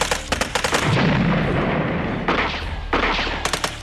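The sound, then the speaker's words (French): Pistol gunfire during a fight with soldiers on a mountain pass near Villard-de-Lans: rapid runs of sharp cracks open and close the passage, with a loud, sustained rumbling blast between them. “Elle sort son pistolet, tire et blesse mortellement un soldat.”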